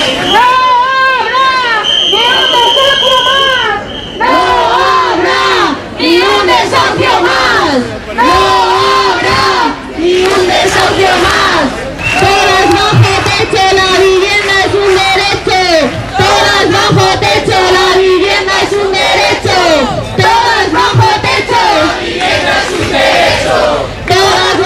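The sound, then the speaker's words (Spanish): Protesters chant at a housing rally organised by a Cantabria housing union outside a government delegation. Many voices shout slogans in rhythmic repeated phrases. Short breaks separate the phrases, and the chanting stays loud and insistent throughout. “Son algunos de los sonidos que se han escuchado en la concentración frente a la delegación de gobierno organizada por el Sindicato de Vivienda de Cantabria”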